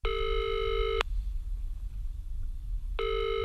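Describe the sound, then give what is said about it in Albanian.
Electronic ringing tone of an outgoing telephone call: a steady, bright, harmonic-rich buzz lasts about a second, then falls silent, and a second ring begins just before the end. Faint background noise fills the gap. “Ndaj vrapova brenda në shtëpi dhe mora në telefon vëllan tjetër, Ullin”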